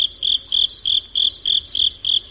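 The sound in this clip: Crickets chirp in Hawaii, males calling in a steady, rhythmic series of many high, bright chirp bursts that repeat at even intervals over a faint low background.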